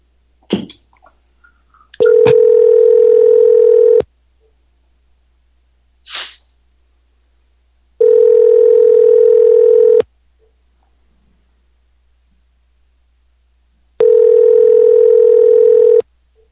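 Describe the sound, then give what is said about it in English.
A telephone call rings out as a number is dialed: three long, steady tones of about two seconds each, evenly spaced by silent gaps, with a few faint clicks before the first. “We'll call him one more time. Here we go.”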